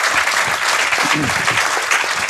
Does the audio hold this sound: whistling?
no